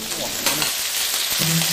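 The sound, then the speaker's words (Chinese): Ciba chili paste sizzles as it is added to hot, mixed cold and red chili oil in a wok. It makes a loud, steady frying hiss that crackles without letting up. “热锅中下入冷油，再加入糍粑辣椒的红油，混合两种油，一来提香，二来增色。油热后加入糍粑辣椒。”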